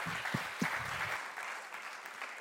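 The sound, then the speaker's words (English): Applause rises from a church audience welcoming a guest pastor, a soft, even patter of clapping that carries on throughout with a couple of low thumps near the start. “That was weak. Come on, fam. Why are we so weak on the applauses in this celebration?”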